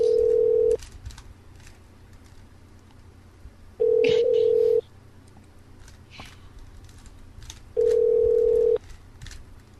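A telephone at a front desk rings unanswered: three long, steady, evenly spaced ring tones at one fixed pitch, separated by quiet gaps with faint background noise.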